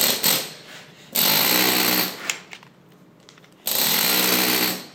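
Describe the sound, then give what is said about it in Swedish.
A toothed chisel dresses church building stone by hand in three loud bursts of rapid, harsh chattering strikes, separated by quieter pauses. “Med det här tandhuggning, du får ett helt annat djup och ett helt annat utseende på stenen.”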